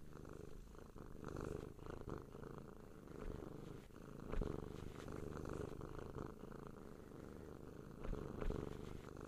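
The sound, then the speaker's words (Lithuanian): Steady, continuous purring of an old male cat at a cat socialization centre, a low rumbling texture that runs throughout without pauses or voices. “Su jumis sveikinasi Vyšnių sodo senbuvis katinas Kokas.”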